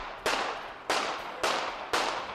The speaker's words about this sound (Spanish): El miércoles el planeta se despierta con 5 disparos. Son exactamente estos.